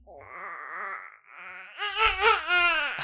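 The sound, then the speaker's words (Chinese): A baby cries after waking up hungry, letting out wavering, strongly pitched wails that break off briefly, then return louder and more urgent toward the end. “儿子饿了， 那个小朋友起床了， 嗯 所以接下来时不时会录到他的声音。”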